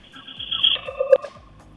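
A telephone rings for an incoming call during a morning call-in show, a short electronic ring of steady high and mid tones that swells twice within under two seconds, with no talk over it.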